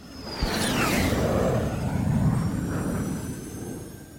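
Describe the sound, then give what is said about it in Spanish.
An aircraft taking off begins with a sudden onset and a thin descending whine, then builds into a broad, sustained engine roar that gradually fades toward the end. “Quédate en la nave. Despegamos en 5, 4, 3, 2, 1.”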